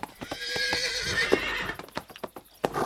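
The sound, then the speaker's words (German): Thin, skittish horses whinny with high, wavering calls beside a horse-drawn carriage, over many sharp clip-clop hoof beats. The steps grow more scattered and uneven toward the end. “Und die Pferde? Die sehen mager und erbärmlich aus. Das Fell ist stumpf. Eben sind sie noch neben der Kutsche hergelaufen, jetzt weichen sie scheu zurück.”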